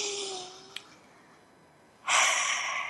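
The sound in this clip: A deep breath drawn in, loud and airy, lasting almost a second. It comes after a quiet pause that follows a short, low voiced tone and a faint click.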